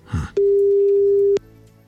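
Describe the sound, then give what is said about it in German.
A telephone ringing tone sounds as a call is placed to a listener: a soft bump, then one steady, even mid-pitched tone lasting about a second, followed by quiet line hiss. “Und deshalb rufen wir da jetzt mal an, in der Hoffnung, dass die Karin auch ans Telefon geht.”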